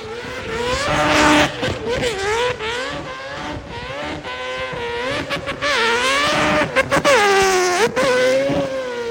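A Mazda race car drifting around corners, its engine wailing loudly and continuously as the pitch swings up and down with the revs, under harsh, noisy bursts that fit tyre scrub.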